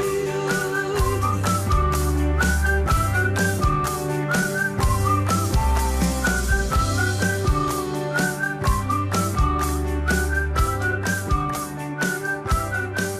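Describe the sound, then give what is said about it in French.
A bright whistled melody carries an upbeat pop song, its short rising and falling phrases riding over a steady bass line and crisp, regular drum beats. “Hein, vous voyez, ça sifflote dans sa jolie petite chanson très pop.”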